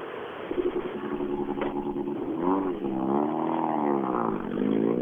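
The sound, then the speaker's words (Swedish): An Opel car driving past in a forest, its engine a loud, buzzing drone whose pitch rises and falls several times as it revs, steady throughout. “nu kommer en Opel”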